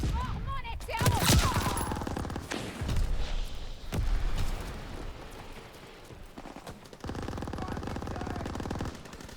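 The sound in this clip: Rapid automatic fire from a Type 28 gun in a video game, heard as loud bursts and booms with a heavy blast early on. Shorter volleys follow, and a voice is briefly heard at the start.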